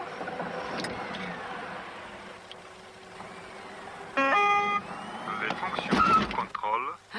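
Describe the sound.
A car with a gearbox like a Volga's runs as reverse gear is engaged before it drives off. A steady low engine rumble carries through, with a brief tonal beep midway and louder rumbling toward the end.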